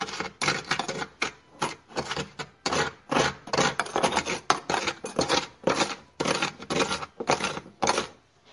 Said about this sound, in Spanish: buscamos una hervidora, colocamos 3 cucharadas de azúcar, revolvemos,